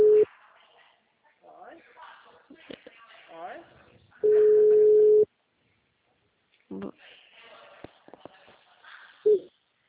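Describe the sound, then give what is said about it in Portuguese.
Ringback tone of an unanswered phone call: a long, steady, mid-pitched tone sounds between stretches of people talking, with short bursts of the same tone at the start and end. “Chamando, não tá atendendo?”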